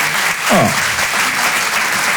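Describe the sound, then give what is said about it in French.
Audience applause for a couple married 51 years, a dense, steady clatter of clapping lasting about two seconds, with a brief voice cutting in near the start. “Oh, on peut les applaudir.”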